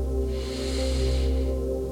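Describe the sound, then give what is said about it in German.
A deep, soft inhalation through the nose, heard as a gentle hiss that swells and fades over sustained calm music tones. “Noch einmal, tief durch die Nase einatmen”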